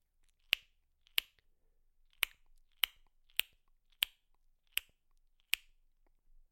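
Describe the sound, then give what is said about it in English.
Eight sharp, crisp palatal clicks made with the tongue just behind the upper teeth, as used for echolocation, spaced unevenly and standing alone against near silence. “The palatal click is created just behind your upper teeth, and it sounds something like this.”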